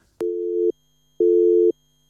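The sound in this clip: Telephone busy signal on a call-in line: two steady, low, buzzy tones, each lasting about half a second and separated by a half-second gap, loud and clean with nothing else over them.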